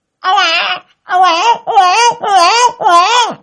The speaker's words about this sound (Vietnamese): rồi nó khóc ré lên, ôi tôi mẹ thương mẹ thương.